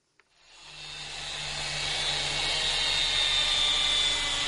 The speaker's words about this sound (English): That's the sound of welding machine